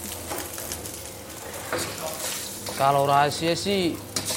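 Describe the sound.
Rice with soy sauce, ketchup and dried fish stir-roasts over a hot flame, with a crackling sizzle and stirring noises. A voice speaks over the frying toward the end.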